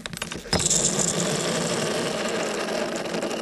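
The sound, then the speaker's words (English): Metal pressed onto a chunk of dry ice, contracting and hissing: a sharp onset gives way to a loud, continuous rough roar with thin high squeals riding on top. “One of my favorite things to record is the sound of putting metal onto a chunk of dry ice.”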